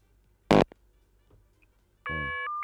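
Electronic telephone ring for an incoming call: a bright, buzzy tone that starts late in an otherwise quiet stretch and holds steady to the end.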